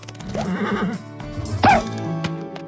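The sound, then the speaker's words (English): A vintage-style cartoon horse whinny sound effect rings out as a wavering, harmonic neigh, followed by a second, sharper and higher cry, loud and alone with no talking. “we had to find kind of different vocals for each of the horses. But even Spirit Riding Free still sometimes needs a dose of the vintage cartoon sounds.”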